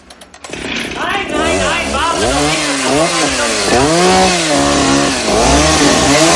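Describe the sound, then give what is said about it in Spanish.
A chainsaw cuts through cable conduits in a basement during the 1988 action film Die Hard, roaring in after a brief quiet start and revving loudly, its pitch repeatedly climbing and dropping as the blade bites. “El asaltante de largo pelo rubio llega al sótano con una sierra mecánica y corta los tubos conductores de los cables.”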